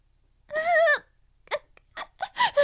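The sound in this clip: A woman cries alone, starting with one long, wavering wail and then breaking into several short, gasping sobs of rising intensity.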